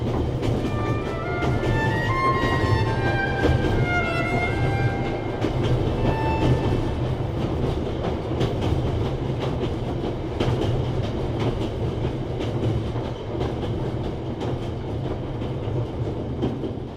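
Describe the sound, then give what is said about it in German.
Steady, loud rumble of a train travelling on rails through Germany, a continuous rolling roar of wheels and carriage noise that holds its level for the whole stretch, with no voices. “Es gibt so viele Züge, so unendlich viele Züge. Ich bin jetzt Reisender. Ich reise in Zügen, die durch Deutschland fahren.”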